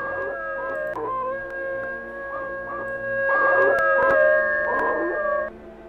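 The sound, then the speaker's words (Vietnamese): A neighbour's dog howls like a wolf, a run of long, wavering, high-pitched howls over steady tones, swelling louder in the middle before cutting off near the end. “Phía xa xa, chó nhà hàng xóm chu lên liên hồi như là chó sói vậy.”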